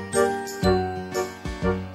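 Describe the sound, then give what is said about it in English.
A little bell tinkles in a run of about five bright, ringing strikes whose tones linger between hits, heard alone without voices. “Noddy, Noddy, his tinkling bell means he's the happiest little fellow in all Toyland”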